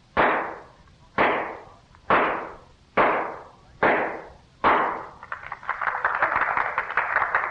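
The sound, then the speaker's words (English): Six .38 caliber revolver shots fired at a pine board to drive a spike: sharp, loud cracks in an even rhythm, each trailing off in a short decay, followed by a continuous rough crackling wash. “Miss Oakley will drive a spike into a pine board with six shots from a .38 caliber revolver from a distance of 20 paces”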